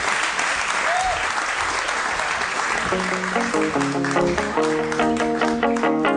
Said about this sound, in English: Let's hear it for the Game Grumps, everybody.